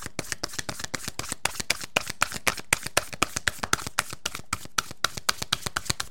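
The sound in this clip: Oracle cards being shuffled by hand produce many crisp, evenly spaced ticks in a fast, steady rhythm, each snap sharp and bright, with no voices over them.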